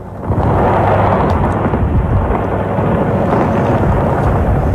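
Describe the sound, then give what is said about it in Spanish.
Deep, heavy rumbling roar of missiles in war, rising quickly at the start and then holding loud and steady as a continuous low boom with no speech over it. “Ese sonido de los misiles y ese sonido de la guerra está marcando también los mercados.”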